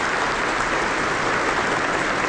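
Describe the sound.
Sustained audience applause for a border guard orchestra: a dense, steady wash of many hands clapping at an even, fairly loud level throughout, with no voices standing out.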